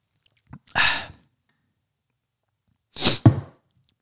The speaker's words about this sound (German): Moment, ein Schluck, ein Schluck Möhrensaft muss kurz her.